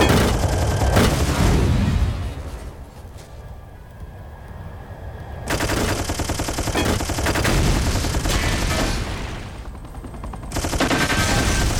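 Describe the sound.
Machine gun fire in loud, dense rapid bursts, with a brief easing in the middle and another short gap near the end before the shooting resumes.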